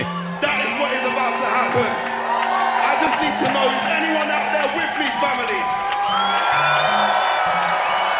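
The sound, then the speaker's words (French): A live audience at the Marseille Jazz des cinq continents festival cheers and whoops, a loud, continuous roar of voices with high whoops and shouts piercing through and staying strong to the end. “On entend le public. Incroyable.”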